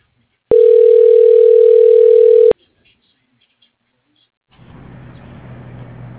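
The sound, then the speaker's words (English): Telephone dial tone: one loud, steady, flat mid-pitched tone held for about two seconds and cut off sharply, followed by near silence and then a low continuous hum. “Dialing.”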